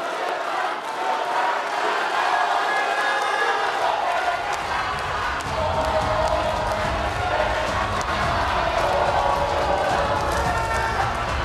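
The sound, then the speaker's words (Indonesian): Applause and cheering from the audience at the second 2024 Indonesian vice-presidential debate, greeting the three candidates. A dense, steady wash of clapping and crowd noise holds at an even, loud level for the whole stretch. “Berikan aplaus dan apresiasi untuk tiga calon wakil presiden yang sudah menyampaikan visi, misi, dan program mereka.”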